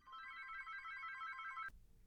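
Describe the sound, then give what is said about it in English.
A telephone bell rings in one steady, bright, continuous burst that stops abruptly, followed by quiet. “And my telephone's been ringing all day long.”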